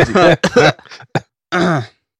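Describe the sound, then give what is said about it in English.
Someone clears their throat in a few short, rough, voiced bursts that end in one longer rasping push, then falls silent. “I just had something in my throat.”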